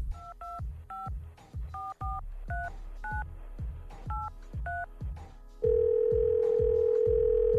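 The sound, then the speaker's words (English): Touch-tone telephone dialing: a quick series of about ten dual-tone beeps over a thumping rhythmic beat, then a steady, loud, continuous line tone. “So let's dial the number.”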